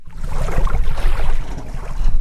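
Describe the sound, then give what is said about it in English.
Tampa Bay water laps at a marina boat ramp on a warm, sunny afternoon, a loud continuous wash of splashing water with gentle uneven surges. “The waters of Tampa Bay are lapping at the boat ramp on a warm and sunny afternoon, making it a busy day for Reggie Norman”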